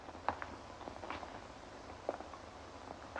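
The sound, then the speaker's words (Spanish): Footsteps in a radio drama as a man walks through a house: soft, irregular treads under a low hiss, with a few slightly heavier steps standing out. “Barton camina por la casa.”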